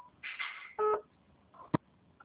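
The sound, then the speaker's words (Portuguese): Electronic phone tones while a mobile phone is being called: a few short beeps and tonal bursts, then a single sharp click-like burst, all fairly faint. “eu tô ligando de novo aí no seu celular. Vê se tá chamando.”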